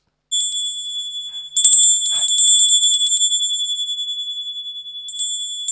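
Electric bell ringing after a button is pressed: a shrill, steady high tone with fast rattling pulses starts abruptly, grows louder and busier, then weakens before a brief renewed burst near the end.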